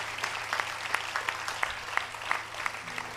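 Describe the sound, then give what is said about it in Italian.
Applause from a crowd at a community gathering honouring a late priest: dense, fairly faint clapping with many sharp claps scattered evenly over a low steady hum. “Quindi un applauso a Padre Daniele, dai, che lo ricordiamo e siamo contenti di esserci.”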